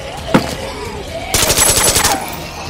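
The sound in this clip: Full-automatic firearm gunfire: one sharp crack near the start, then a loud, sustained burst of rapid, evenly spaced shots that runs through the second half.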